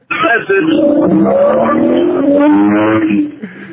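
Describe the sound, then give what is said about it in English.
Car engine fitted with an aftermarket air intake, producing a loud, steady growl that holds for about three seconds, then quickly drops away. “He put a different air intake on it, and has a wonderful sound.”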